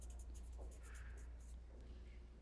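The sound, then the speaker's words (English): Writing on a popsicle stick makes a few faint scratching strokes of a pen, very quiet over a low hum. “And on the popsicle stick, I'm going to write increased self-awareness.”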